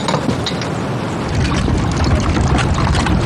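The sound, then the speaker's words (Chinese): Water is poured in a steady, loud, rushing splash that continues without a break and swells slightly partway through, with no talking over it. “站着干嘛？倒水呀”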